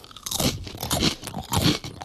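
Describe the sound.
Crunching potato chips being eaten gives three loud bursts of crisp, crackling chewing with brief softer gaps between them, and no voices.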